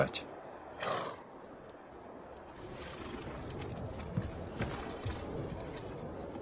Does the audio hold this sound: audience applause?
no

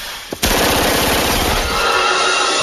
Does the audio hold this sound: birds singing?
no

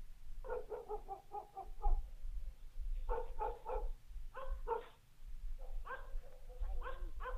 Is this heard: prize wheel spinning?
no

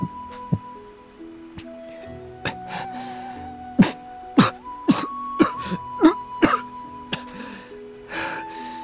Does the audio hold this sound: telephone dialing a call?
no

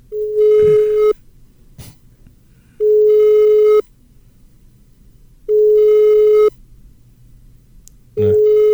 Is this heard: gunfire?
no

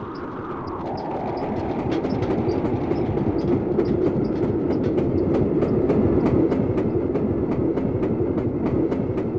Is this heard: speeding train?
yes

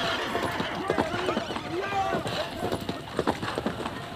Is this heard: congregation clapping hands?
no

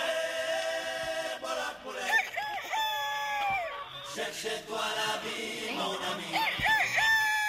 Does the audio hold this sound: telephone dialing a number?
no

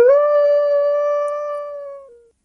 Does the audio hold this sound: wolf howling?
yes

